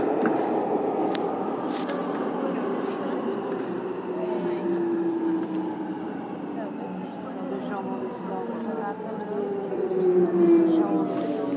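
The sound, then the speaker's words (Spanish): Metro station ambience with service announcements about closed lines: a steady low rumble and faint tonal whine run throughout, with an announcement voice over the background hum. “Nuevamente en el metro con avisos de que hay líneas cortadas que no operan o algo.”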